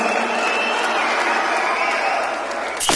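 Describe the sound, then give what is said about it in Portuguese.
An audience claps during a worship service. The clapping is steady and dense, with crowd noise throughout, and it cuts off abruptly near the end. “Aplauda o Senhor. Aleluia.”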